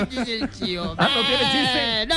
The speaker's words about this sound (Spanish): ¿Qué chivo? ¿El chivo? Ay, claro. Es un chivo